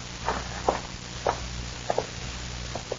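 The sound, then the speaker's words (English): A few footsteps as someone walks into a cabin: soft, irregular treads at a moderate level over a low steady hum, with some steps landing close together. “Walk ahead of me into the cabin. Go on.”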